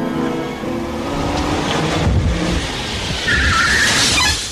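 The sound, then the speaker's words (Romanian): A taxi car pulls up and stops on a street. Steady engine and tire noise holds throughout, with a brief high squeal near the end as it comes to a halt. “Am oprit un taxi.”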